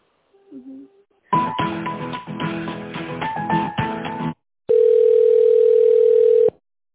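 Telephone line sounds during a call transfer: a few seconds of tinny, shifting tonal sound, then, after a brief gap, a steady, continuous electronic tone that cuts off abruptly.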